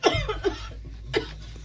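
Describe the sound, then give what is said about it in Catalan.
A woman's dry, persistent cough: three short, rough bursts spaced unevenly across the moment, fairly loud, with no talking. “Una tos seca, persistent, que sembla tallar el silenci de la postguerra.”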